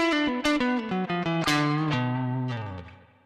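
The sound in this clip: Electric guitar plays through a space tone amp profile with no speaker cabinet, giving a bright, harmonically rich tone: a quick run of short single notes, then a held note that rings and fades away.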